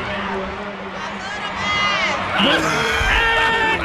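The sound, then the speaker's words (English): A studio audience cheers and screams as actor Michael Ealy is announced, with sustained high shrieks and whoops that grow louder about halfway through and keep going without a break. “And here is Michael Ealy gets announced. And listen to the audience, though. They wouldn't stop. This went on for about a minute or two.”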